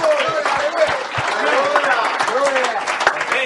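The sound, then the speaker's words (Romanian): A church convention audience applauds, a steady wash of many hands clapping that carries on under a man's speaking voice. “Let's give him a hand. Amen. And most of all, give yourselves a hand.”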